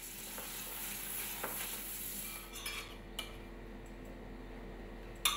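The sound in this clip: Spring onions and gnocchi are tossed in butter in a pan with a steady, faint sizzle, broken by a few light clicks and clinks of a utensil against the pan.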